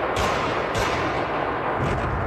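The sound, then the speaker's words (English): Gunfire during the attack on Crocus City Hall, a rock concert venue near Moscow: loud, dense bursts of shooting crackle continuously, with a few sharper volleys standing out from the harsh roar. “Gunmen had stormed the venue near Moscow, the Crocus City Hall. They went on the rampage, shooting their way through the building and into the auditorium.”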